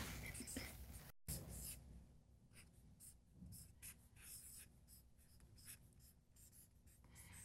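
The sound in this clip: Writing something down by hand: many short, scratchy strokes in irregular bursts, faint and close, with some soft talk alongside.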